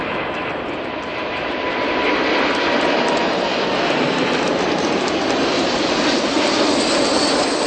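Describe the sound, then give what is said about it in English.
A new Boeing 747 jet airliner takes off with a loud, broad, steady jet roar that builds during the first second and a half, then holds strong and unbroken to the end. “watched the takeoff at 12:39 p.m. Pacific time. Yeah, the Chase looks like it's positioned well. There's rotation, and they're in the air.”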